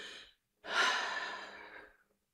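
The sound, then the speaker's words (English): Deep breathing in a guided relaxation: a short breath trails off, then after a brief pause comes a long, full, airy breath lasting over a second. No voices. “let's at this moment take that deep breath, exhale,”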